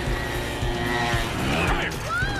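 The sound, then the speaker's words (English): Cars skid to a stop on a street while scooters weave around them, with loud tire squeals and whining pitch sweeps over a continuous engine roar. “Cars skid to a stop as the scooters weave around them.”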